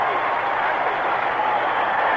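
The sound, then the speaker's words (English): A crowd of 75,000 applauding the Miami offensive unit on a sunny day in the Orange Bowl during a 1983 NFL playoff game against San Diego: a steady, broad roar of clapping and crowd noise at an even level. “The Miami offensive unit is applauded by this crowd of 75,000 on a sunny day in the Orange Bowl.”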